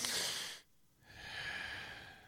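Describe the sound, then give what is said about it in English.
Breathing exercise: a short, forceful breath in, a brief pause, then a longer, relaxed exhale released without effort. Both breaths are clear, with no speech. “So you take a short, powerful breath in, starting with your belly, then you expand your chest, and then you release it without any force. But you let your body exhale.”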